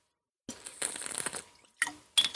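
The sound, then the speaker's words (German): Someone takes a small sip of a drink: a few short, wet bursts of liquid and soft glassy clinks, with quiet before them and no speech. “In der Beschreibung steht es ja, dass ich jetzt erstmal einen kleinen Schluck trinken muss.”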